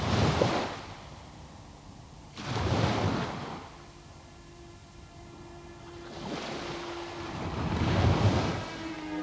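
Sea waves wash onto a beach in a few broad, hissing surges that swell and recede, with quieter stretches of wash between them.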